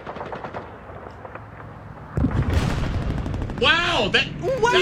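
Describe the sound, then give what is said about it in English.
World War II gunfire sound effect with rattling bursts of rapid machine-gun fire that turn heavier and more booming partway through. A voice can be heard among the shots. “Wow, there's actually World War II sound effects. Hold on, there's one.”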